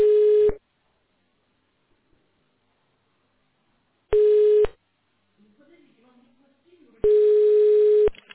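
Three telephone tones sound while a call is transferred to an accountant. Each is a steady single-pitched beep: two short ones, then a longer one about a second long, separated by long silences, with a faint murmur before the last tone.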